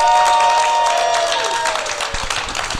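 A live studio audience applauding and cheering, with dense, steady clapping and a few high whoops that stay loud throughout before thinning slightly near the end.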